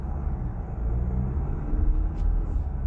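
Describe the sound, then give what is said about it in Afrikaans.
A 2.2-litre turbo diesel engine runs in a vehicle with a third row of seats, giving a quiet, constant low rumble with no sharp changes in pitch or loudness. “Die 2.2 loop nogal sag vir 'n turbo diesel en lewer 148 kW en 440 Newtonmeter wrinkrag moeiteloos vanaf laat toere.”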